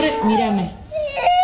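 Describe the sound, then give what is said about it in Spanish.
A young girl cries, overcome with emotion about a football player retiring. The sobbing is loud and wavering, with her high-pitched voice rising and falling through a strained wail, then breaking into a brief, whimpering cry. “uno se ponen contentos y otros, como esta nena, se pone mal, se emociona, mirá, llora”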